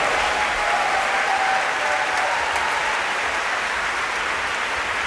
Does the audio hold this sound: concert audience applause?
yes